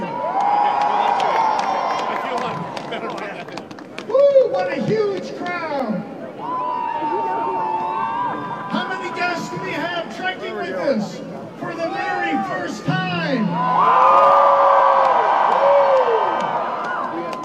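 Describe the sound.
A big crowd cheers and shouts at the Groundhog Day celebration in Punxsutawney, a continuous roar of voices, whoops and clapping that swells loudest around two bursts, one early and one near the end.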